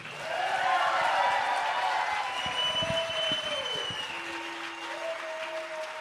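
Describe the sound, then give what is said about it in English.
Audience applause welcoming Pete Seeger: sustained clapping from a crowd that swells quickly to its loudest early on, then gradually eases while still going strong. “we want to give a big hand, a rousing welcome for Pete Seeger”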